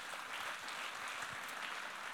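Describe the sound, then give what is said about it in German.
Faint, even applause from a worship audience clapping for the musicians on stage, a dense, steady patter of many hands that continues without a break. “Vielen Dank an die Musiker, auch euch ein Applaus.”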